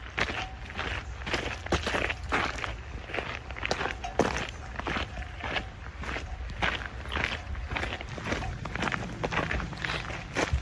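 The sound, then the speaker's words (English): Footsteps walking at an easy pace, many even, regular steps in a steady rhythm over a constant low background hiss, with no voices. “Okay, so just walk a bit.”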